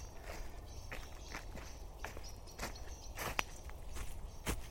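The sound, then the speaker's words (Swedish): Footsteps walk out of a forest, many soft crunching steps landing in a steady pace over quiet outdoor background noise. “Nej, kom, vi går här. Vi går ut från skogen igen.”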